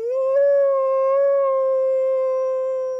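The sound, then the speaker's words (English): A wolf howling, one long, loud, clear sustained tone that climbs briefly at the start and then holds a nearly level pitch before trailing off, with no other sounds. “Today's Name That Sound is a wolf. Wolves are famous for their howls.”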